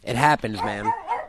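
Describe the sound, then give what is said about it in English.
An upset dog gives a brief whining yelp-like bark, then a man speaks a few words. “See, my dog heard the noise and he got upset.”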